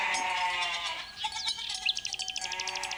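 Goats bleating as they follow children climbing up toward a mountain pasture: faint, high, wavering bleats, the last one pulsing in a quick quavering rhythm, with no talk.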